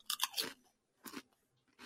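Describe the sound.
Salted egg flavour crisps crunched in the mouth: a few crisp, brittle bites and chews come in short bursts with quiet pauses between them.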